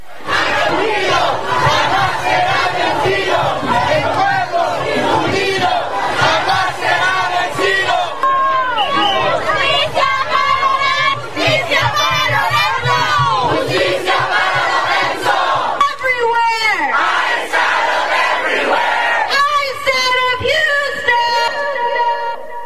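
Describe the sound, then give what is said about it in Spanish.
Protest crowd shouting at a mass demonstration against violent immigration enforcement actions. Many voices yell and chant loudly and continuously, with surging, overlapping cries throughout. “Parte de los sonidos, parte de las protestas que se han desatado en estos momentos por estos actos de violencia.”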